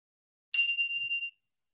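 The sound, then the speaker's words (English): A single bell strike rings out once during a practice, a bright clear tone that sustains briefly and then stops cleanly. “And I'll ring the bell once more.”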